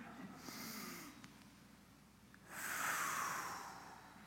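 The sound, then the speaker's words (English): Quiet breathing: one slow breath drawn in through the nose, then a longer, louder exhale pushed out through pursed lips with a faint whistling hiss, heard alone. “Actually, you take in through your nose, and then you purse your lips to breathe out. So let's do this.”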